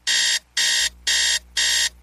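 An alarm clock rings with a snooze alarm's bright electronic tone, in four even bursts of about a third of a second each with short gaps between them. The ringing is loud, and no voices are heard.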